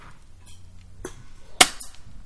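Airsoft gun shots fired at a tree stump: a few sharp, snapping pops in quick succession, one much louder than the rest, with quiet between them.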